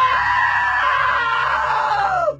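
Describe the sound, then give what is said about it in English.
A long, loud, high-pitched scream holds steady for over two seconds, then drops in pitch and cuts off, heard alone without other sounds. “Now that was a great scream.”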